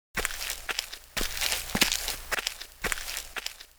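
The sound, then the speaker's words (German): Footsteps of people walking through a garden toward a car, a steady series of crunchy, scuffing steps at an even walking pace, heard alone without talk. “Wir gehen durch den Garten zum Auto.”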